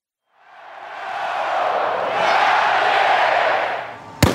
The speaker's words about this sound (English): That's the sound of WVU fans cheering and the Mountaineer mascot's rifle firing. And a lot goes into that bang.